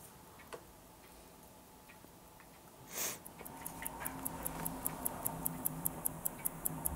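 A newly assembled skeleton clock movement with its hands just fitted starts to tick. After a brief soft whoosh, many quick, even, crisp ticks repeat at a steady rhythm and grow slightly louder.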